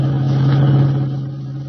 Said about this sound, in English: Kent and White dashed out, and as we join them now, they are driving the revived but still weak Jim Olsen back to the Daily Planet.